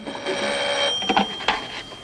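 A telephone ringing as a hotel guest comes to answer it: a steady high electronic tone followed by a few sharp, bright clicks and knocks from the handset, moderately loud with no voices.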